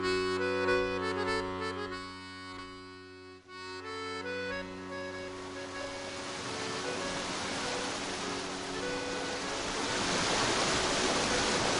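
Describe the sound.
Sea waves wash in a steady, broad rushing roar that builds as a sustained musical tone in the opening seconds fades away.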